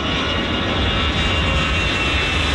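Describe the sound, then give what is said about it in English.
Loud, continuous jet engine roar from planes taking off at Paris's biggest airport, a steady, dense rumble with no breaks. “for not hearing anything over the sound of hundreds of flights taking off”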